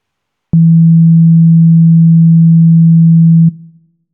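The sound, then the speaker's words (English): A pure sine wave tone holds one steady low pitch for about three seconds, loud and unwavering, with nothing else around it, then cuts off with a short fading tail. “a soft undulating up and down motion is called a sine wave. And it sounds like this.”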